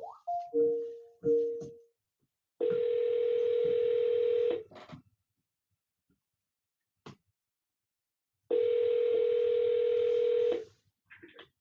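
Telephone dialing before a call: a few quick keypad beeps at the start, then two long, steady electronic tones of about two seconds each, separated by a long quiet gap with faint clicks.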